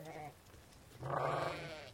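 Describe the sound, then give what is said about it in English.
Sheep munching on hay bales bleat, a short bleat followed by a longer, louder wavering baa. “if you listen to just that track, that you can hear so many individual baas of individual sheep”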